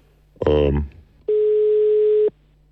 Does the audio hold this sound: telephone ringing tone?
yes